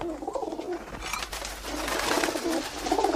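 Pigeon sounds as a pigeon drinks water held in a man's mouth: steady, continuous cooing and soft rustling at a moderate level, with no voices.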